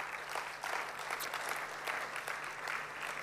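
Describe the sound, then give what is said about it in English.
Applause from a church audience: steady, dense clapping that holds evenly for about three seconds, fairly faint, with no speech over it. “church, can we put our hands together to congratulate all of those that participated?”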